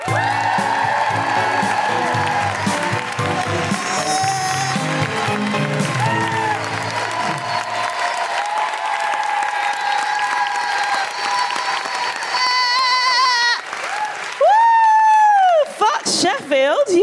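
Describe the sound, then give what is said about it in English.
Loud, sustained audience applause with whoops and cheers for a comedian at a live comedy show in Stratford-upon-Avon, dying away as a woman begins speaking near the end. “Put your hands together and make an incredible woohooing noises for the wonderful Sophie Juca.”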